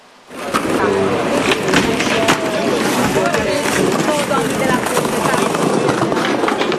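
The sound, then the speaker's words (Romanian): Skateboards roll on the asphalt of the pedestrianised Calea Victoriei boulevard on a weekend, a loud continuous gritty rumble that starts abruptly and is peppered with sharper clacks throughout. “Weekend plin de viață pe Calea Victoriei. Bulevardul a devenit o pistă uriașă de skateboarding.”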